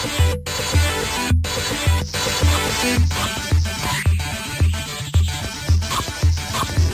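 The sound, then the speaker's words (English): Arcade soundtrack from Atari's 720° skateboarding game on System 2 hardware: loud driving electronic music with a steady pulsing bass beat under dense synth tones, with no talk. “what you're hearing there is the sounds of the fantastic 720 degrees.”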